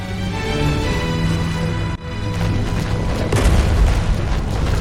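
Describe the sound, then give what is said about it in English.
Explosions in the video game Halo 3: a deep, booming low rumble under a sustained tonal drone, briefly dipping midway and then swelling louder toward the end. “But in Halo 3, the floor is like exploding around you, and it's really easy to just drive off into the. We're cutting it close. The abyss.”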